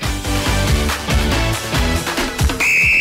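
A referee's whistle ends a football match with one sustained shrill blast at the very end, following a rhythmic thumping musical beat.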